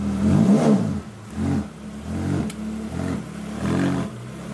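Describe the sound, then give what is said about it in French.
A Ferrari engine revving in repeated bursts, several swelling throaty roars rising and falling in loudness with short dips between them, alone without voices. “Le moteur d'une Ferrari a une musique unique, disent les vrais amateurs.”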